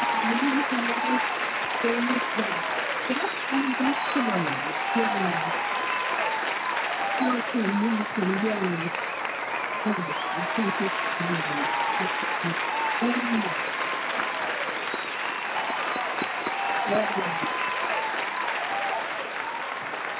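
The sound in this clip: Audience applause welcomes a guest onto a show, with steady, muffled clapping running the whole time and voices mixed in over it.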